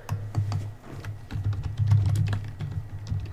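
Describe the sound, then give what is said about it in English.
Someone types on a computer keyboard: a quick, irregular run of many crisp key clicks that continues without pause. “I cannot type for shit today.”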